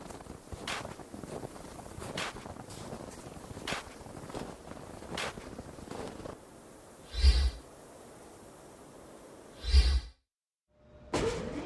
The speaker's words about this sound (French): Elle est puissante, la soufflerie qui chasse l'air froid de votre sas. Elle est neuve.